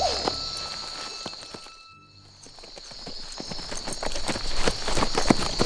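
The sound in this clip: Horse hooves clip-clop as a rider sets off at night from a military post. Many sharp hoof strikes fall in a steady walking rhythm, dipping briefly near the middle, then growing louder.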